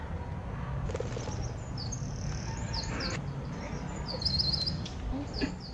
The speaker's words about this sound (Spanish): Oh, ¿qué es aquello? Te lo acabo de decir, papá, es un pájaro.